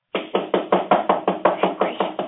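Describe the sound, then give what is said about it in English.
Heavy knocking on a wooden door, a long, even run of loud, hard raps in quick succession with no pause between them. The knocks come alone, with no voices. “No friend would knock in such a fashion.”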